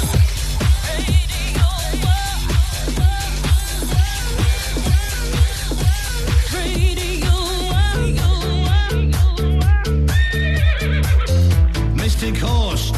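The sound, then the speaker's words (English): Horse neighing and whinnying, repeated loudly many times over a steady, rhythmic backing. The shrill calls rise and fall in quick succession for the whole stretch and grow denser toward the end. “You've roused the horse.”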